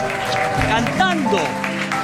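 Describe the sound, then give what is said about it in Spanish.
An audience applauds with a dense, steady clatter of clapping, and voices call out over it. “aplauso para Gabriel Rolón. Increíble.”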